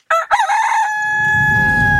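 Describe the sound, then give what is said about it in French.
A rooster gives a single loud, piercing crow near the start, a short harsh burst of cock-a-doodle-doo. “C'est juste le coq. On va s'intéresser à ce gallinacé dans un instant”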